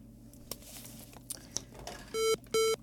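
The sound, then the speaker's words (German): A telephone call is put through on a studio line: a few soft clicks, then two short electronic tones in a row, each a steady buzzy beep that stands out against a quiet background. “Wir haben einen Anrufer. Ah, okay. Ich werde mal versuchen, durchzustellen.”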